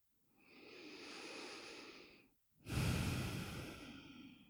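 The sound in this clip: Slow, deliberate breathing: one long, soft inhale is followed after a short pause by a fuller, louder exhale, with no voices present.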